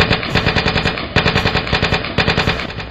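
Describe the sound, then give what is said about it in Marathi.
Machine guns fire during a battle against an advancing army in a loud, continuous rattle of rapid, regularly spaced shots that comes in several bursts with brief dips between them. “तोपर्यंत होती सामसूम आणि मग अचानक machine guns धडधडू लागल्या.”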